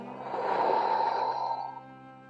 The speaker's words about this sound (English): What I need you to do right now is breathe in very deeply and then exhale.